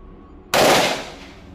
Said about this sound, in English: And, well, Watson didn't want to hear it. Shot him.